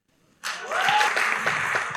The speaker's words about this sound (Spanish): Aplausos a ustedes, aplausos para Kika.